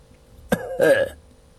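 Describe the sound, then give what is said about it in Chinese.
Light cough in the manner of a throat clearing, a sharp brief burst followed by a short voiced, ahem-like sound, heard alone against a quiet background. “又仔细看过李高，轻咳了一声”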